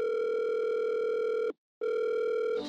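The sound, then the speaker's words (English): An outgoing telephone call rings on the line: a long, steady, buzzy ringback tone, a short silent pause, then the same tone again, clear and alone. “Should we try that new number in the phone and see if that doesn't... Yeah. So 4213. Yeah. Oh. The phone rings again.”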